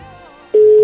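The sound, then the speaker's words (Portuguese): A ringback tone on a phone call that goes unanswered: a quiet stretch, then one loud, steady mid-pitched tone that starts partway in and holds to the end. “Tá chamando. Chamando, tá chamando.”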